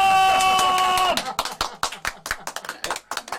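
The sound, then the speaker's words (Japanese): Hand clapping from an audience after a kendama trick balanced on a performer's chin. A sustained tone comes first, then many separate, uneven claps ring out rather than a dense ovation. “顎に乗ったら大きな拍手お願いします。”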